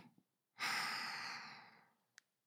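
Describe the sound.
A single slow, deep breath begins abruptly and fades out gradually over about a second and a half as a soft, airy whoosh. It is quiet and heard alone, followed by a faint tick.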